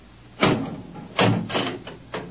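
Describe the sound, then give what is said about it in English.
A door being opened, heard as a few knocking clunks and rattles of varying loudness in an uneven sequence, with no talk. “Open the door.”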